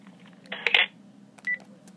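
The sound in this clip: Telephone keypad dialing tones, a longer tone burst followed by a short single beep, both faint over a low steady hum.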